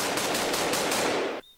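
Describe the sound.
A rapid-fire gunfire sound effect: one dense, continuous burst of shots lasting over a second, then cutting off abruptly.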